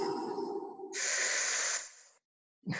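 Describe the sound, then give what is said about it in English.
A deep belly breath, drawn fully in and then let go, makes a soft, steady breathy hiss that fades out, followed by a short silence before another breath begins. “So use your belly and take a full breath in, like, and then you let it go.”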